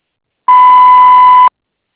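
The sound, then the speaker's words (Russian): A voicemail beep tone: a single steady electronic beep at one clear pitch, loud and lasting about one second, alone with silence before and after. “Вы можете оставить сообщение после звукового сигнала.”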